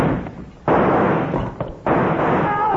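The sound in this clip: Gunshot from a gun rigged with a cord tied to its trigger and yanked from a distance: a sudden loud blast that trails into a rough, sustained roar, followed about a second later by a second similar burst.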